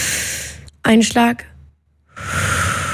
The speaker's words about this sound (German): wir haben ein bisschen Atemübung jetzt gemacht